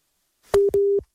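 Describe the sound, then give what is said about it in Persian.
Telephone busy tone after a caller on a live phone-in is disconnected: two short, loud beeps at one steady pitch, separated by a brief gap. “بله، ارتباطشون قطع شد.”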